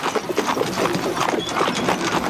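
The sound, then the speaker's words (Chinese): Hooves of horses pulling a carriage clip-clop along a street, a busy, steady patter of many quick knocks at even loudness without a clear beat, with no voices. “吁！这些御史大夫曹大人的马车，谁敢阻拦？”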